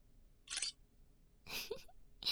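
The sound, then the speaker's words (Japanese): A camera shutter fires while someone photographs a sleeping face, giving a few short, sharp mechanical clicks separated by near silence. “寝顔の写真撮っとこうっと。”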